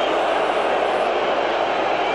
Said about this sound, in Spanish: El abucheo para el árbitro, Darío.